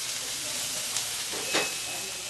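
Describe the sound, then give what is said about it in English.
Pork chops, tomatoes and onions sizzling on a grill at a small cafeteria in San Salvador: a steady, dense hiss with a couple of brief, louder crackling bursts. “At a small cafeteria in San Salvador, pork chops, tomatoes, and onions are sizzling on the grill.”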